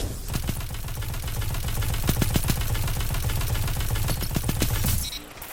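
Gunfire in the video game Destiny 2 rattles out in rapid automatic bursts with sharp repeated cracks, then stops abruptly near the end.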